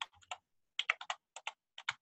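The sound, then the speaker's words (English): Keys on a computer keyboard clatter as someone types a search term. Many crisp, faint clicks come in quick clusters separated by short pauses, with no talk. “if I type in permits”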